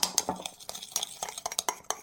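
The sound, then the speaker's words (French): A hand whisk stirs eggs and sugar in a mixing bowl, making many quick, irregular metallic clinks and scrapes at a fairly soft level. “Dans un saladier, cassez les 5 œufs. Y ajoutez le reste du sucre blanc et remuez avec un fouet à main jusqu'à ce que le mélange soit bien homogène.”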